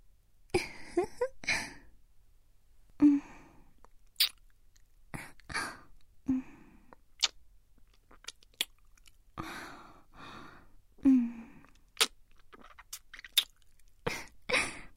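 Soft, wet kissing smacks and mouth noises come at irregular intervals, several short lip sounds separated by quiet pauses, with a few faint breathy voiced sounds between them.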